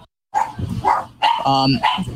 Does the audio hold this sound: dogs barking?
yes